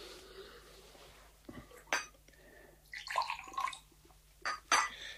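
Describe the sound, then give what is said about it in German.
Water being poured, with faint clinking like dishes or cutlery, quiet overall apart from a few short, louder splashy bursts. “Hier ist Wasser.”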